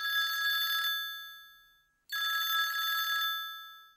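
A telephone rings twice in a short phone-call scene. Each ring is a bright, steady electronic trill lasting about a second, then fading out, with a brief silent gap between them. No voices are heard.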